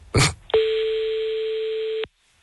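A telephone ringback tone plays as a call to someone's home goes through. After a brief burst of noise comes one steady, single-pitched tone lasting about one and a half seconds.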